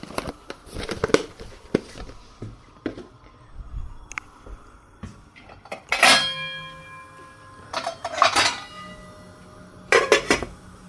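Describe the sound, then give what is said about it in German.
Lid placed on a cooking pot holding a braising roast with bay leaves: a few metallic clatters of pots and cutlery, one louder clank ringing briefly, among softer kitchen knocks. “Und dann den Deckel drauf.”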